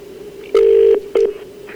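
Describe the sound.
Outgoing telephone call ringing out: a steady mid-pitched ring tone sounds twice, a long burst followed by a short one, clear and loud over a faint constant hum, with no voices.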